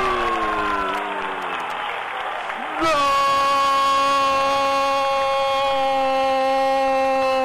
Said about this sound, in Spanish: Y el poco público que vino festeja el gol de Jefferson Rivas a los 11 minutos.